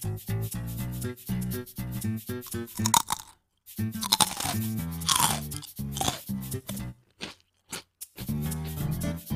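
Crunchy food being eaten, with many sharp, dry crunches in quick bursts, broken by short pauses between bites. No one speaks.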